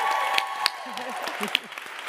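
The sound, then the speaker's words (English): Audience applause for panel guests, a short burst of moderate clapping with a few sharper claps standing out, while a voice talks over it. “Everyone's gonna get a lot of applause today.”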